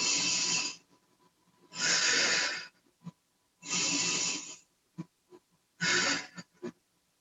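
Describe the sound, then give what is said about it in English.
Deep breathing in and out during a guided relaxation exercise: four long, loud, airy breaths in a slow, even rhythm, with a few soft clicks and taps between them. “Breathe in and out.”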